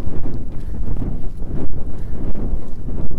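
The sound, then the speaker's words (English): Wind blowing across a microphone makes loud, gusty low rumbling and buffeting. The bursts swell and drop irregularly, with several sharp thumps, and no voices are heard. “Here's that wind again.”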